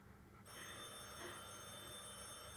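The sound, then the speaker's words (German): A telephone bell rings continuously after a brief quiet start, a bright, steady metallic trill that holds at an even level to the end. “Telefon. Soll ich hingehen? Ich weiß nicht.”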